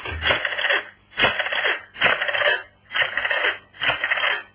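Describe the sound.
A telephone is dialed in a radio drama: five even, rasping whirring bursts in a steady rhythm, each under a second long and separated by short gaps, with no voices.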